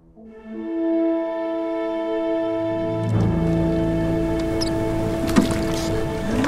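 Oars splashing as a sloop is rowed: sloshing, gurgling water noise with a sharp splash near the end. It comes in under sustained, layered musical tones that begin alone before the water enters.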